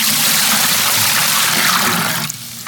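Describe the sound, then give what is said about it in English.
A pint of liquid poured out of a larger volume: a loud, steady, hissing gush of running liquid continues unbroken, then cuts off sharply just before the end. “This is 5.5 liters of liquid. Now, if you remove a pint, here it is again.”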